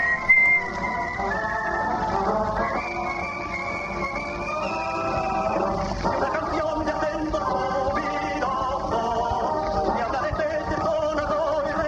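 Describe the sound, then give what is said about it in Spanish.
A person whistles in a studio: sustained high tones that step and glide upward early on, laid over a steady background of layered tonal sound. “Un chiflido ahí que no sé qué es. Ahí va. Vamos a escucharlo un poquito.”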